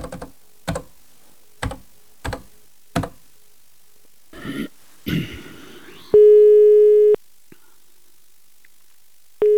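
A telephone line tone while a call is placed: a few sharp, separate clicks and some brief rustling handling noise, then a steady buzzing tone holds for about a second, stops, and starts again at the end.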